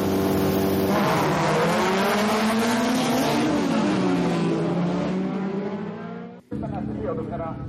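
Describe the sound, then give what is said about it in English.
Race car engines roar at a racetrack on race day, a loud continuous drone whose engine tones rise and fall. Talk runs underneath, and the sound briefly drops out near the end. “It's noisy with the car engines and the commentary going on.”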